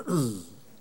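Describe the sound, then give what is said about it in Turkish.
A single short cough, voiced and throaty with a falling tone, heard alone with a brief tail afterwards. “öyleyse öksürük”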